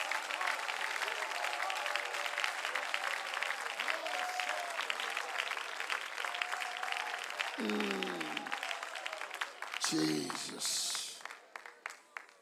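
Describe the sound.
Congregation clapping during a church service: steady, sustained clapping with a voice speaking over it, fading near the end.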